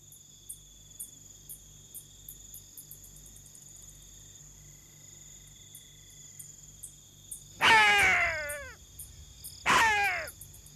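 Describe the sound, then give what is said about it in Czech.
Faint, rapid metallic chirps from bats flying low over hyenas repeat steadily throughout, and two loud, harsh calls break in near the end. “Tenhle kovově cvrčivý zvuk jsou netopíři. Houpavě přelétají těsně nad hlavami hyen.”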